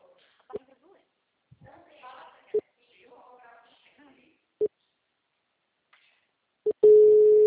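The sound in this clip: A telephone call rings through: four short, identical tones about two seconds apart, then a steady continuous tone at the end, with faint voices murmuring between the beeps.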